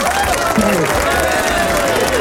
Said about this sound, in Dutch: Ik start het applaus nog even voor je in.